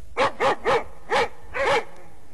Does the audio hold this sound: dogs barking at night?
yes